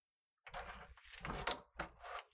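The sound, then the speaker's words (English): A door being locked, heard as a short, faint sequence of rattling clicks and knocks from the handle and lock, with a few sharper clacks near the end. “And I can just lock the door. Like this.”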